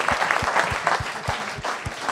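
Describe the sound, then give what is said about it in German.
Audience applause on a quiz game show stage as a winner is announced, dense steady clapping with a few louder low thumps mixed in, continuous and fairly loud throughout. “Einen großen Applaus.”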